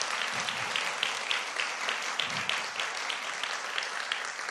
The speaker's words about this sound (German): Auch das möchte ich gerne mal würdigen. Einen Applaus für dieses wunderschöne